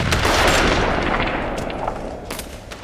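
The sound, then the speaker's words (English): Gunfire from a firefight with a pistol, with several shots ringing out: loud, overlapping cracks over a dense, sustained roar that slowly eases off. “But the second he went to raise his pistol again, several shots rang out.”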